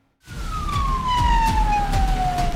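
An ambulance siren on an emergency call in Bolu, held up by drivers in the emergency lane, wails loudly after a brief silence. A single tone slides slowly downward over a low rumbling road noise.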